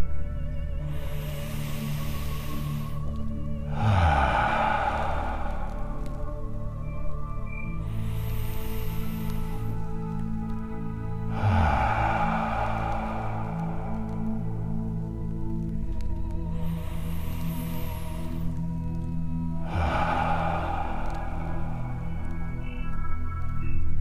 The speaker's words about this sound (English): Now let's take three final, deeply satisfying breaths and let tension appearing anywhere in the body completely melt away.